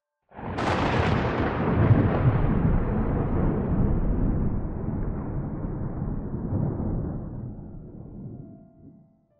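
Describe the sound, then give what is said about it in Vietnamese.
Thunder rumbles in a loud, deep, continuous roll that sets in abruptly, holds for several seconds and then slowly fades out. “Tiếng sấm vang trời”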